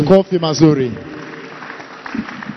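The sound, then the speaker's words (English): Church audience applauding: a voice speaks briefly, then steady, dense clapping follows and continues to the end. “Put your hands together for the Lord and welcome.”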